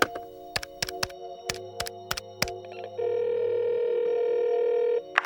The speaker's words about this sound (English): Dial the number.